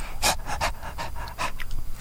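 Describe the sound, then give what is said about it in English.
A dog pants in a rapid series of short, breathy bursts, each quick huff even and fairly loud, with no voices present. “Bailey the dog is her surrogate. I'm not making this up. Senator Elizabeth, a beautiful dog, a talented dog.”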